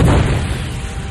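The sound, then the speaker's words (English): Explosion of a concussion missile struck by a burst of plasma near a frigate: a loud, deep boom with heavy low rumble that fades slowly over about a second. No voices. “A concussion missile hurtled toward the ship. Ganner sent a burst of plasma out to intercept it. And Jaina jinked sharply to avoid the resulting explosion.”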